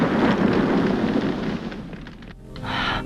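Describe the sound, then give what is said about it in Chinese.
A car explodes in midair as it plunges toward the sea, a loud, broad roaring rumble that slowly thins and dies down, then swells briefly again near the end. No voices are heard. “可没等车完全掉进去，就在半空中爆炸。”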